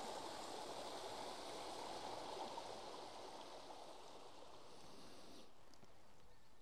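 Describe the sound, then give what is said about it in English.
A small beck flowing through a valley gives a steady, soft rushing trickle, faint but continuous, with no voices and no other distinct sounds. “it provides a neat little way of getting over the beck rather than getting wet feet”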